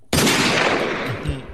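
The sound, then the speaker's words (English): Gunfire in a video game: a sudden loud, harsh blast that starts sharply and stays strong and noisy, fading slightly to the end. “you gotta shoot the gun. Quick on the draw.”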